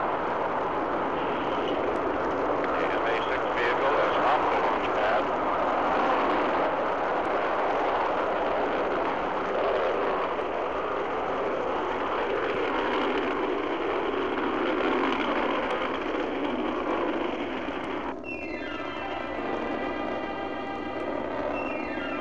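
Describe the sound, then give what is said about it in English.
The MA-6 rocket lifting off, a loud, continuous roar of thrust with dense rumbling noise that holds steady for about twenty seconds and shifts slightly in texture near the end. “Liftoff! The clock is operating. We're underway. The MA-6 vehicle has lifted off.”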